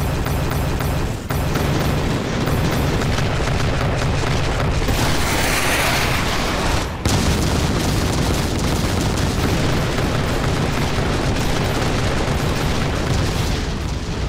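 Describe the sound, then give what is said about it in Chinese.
Mecha units open fire on a dragon-like monster in a loud, unbroken barrage of gunfire and explosions. The roar stays dense throughout, dipping briefly near the start and again around the middle. “收到，全机体准备攻击，目标灵魔地龙， 开火！”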